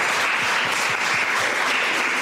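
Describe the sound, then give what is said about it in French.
An audience applauds at the end of the first session of a science talk with students asking questions: a thick, even wash of many clapping hands holds at a steady, loud level. “J'aimerais qu'on s'applaudisse pour cette première session.”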